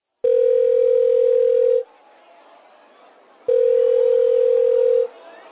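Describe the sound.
A telephone rings in two long, steady electronic tones of equal pitch separated by a pause, each loud and even, with faint background noise between them.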